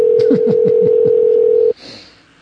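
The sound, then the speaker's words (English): A telephone line tone: a loud, steady single-pitched tone with a run of short, lower rhythmic blips beneath it. It cuts off abruptly after about one and a half seconds, leaving faint noise. “Answer the phone”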